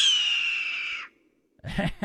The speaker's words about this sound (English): And this is the actual red-tailed hawk.